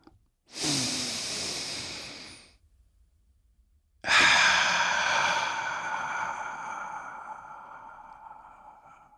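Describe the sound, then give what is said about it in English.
A deep, breathy inhale lasts about two seconds. After a short silence comes a longer hissing exhale that slowly fades away, with no talking. “let's take a deep breath.”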